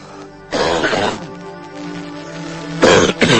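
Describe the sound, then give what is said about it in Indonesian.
A seated man coughs in harsh, raspy bursts: one long fit, then a strained pause, then a couple more sharp coughs at the end. “malah jadi batuk-batuk. Berisik deh.”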